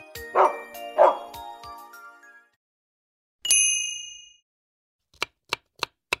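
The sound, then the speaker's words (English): A dog gives two sharp barks in quick succession, then a bright ringing ding sounds and slowly fades; a few short, crisp clicks follow near the end. “I have a cute dog.”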